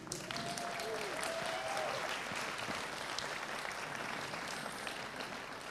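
An audience applauds to welcome guests at a church service, with a steady, soft wash of clapping from many hands throughout.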